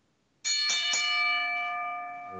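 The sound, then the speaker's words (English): A wrestling ring bell is struck three times in quick succession. The bright metallic clangs blend into a sustained ring that slowly fades. “ring the bell”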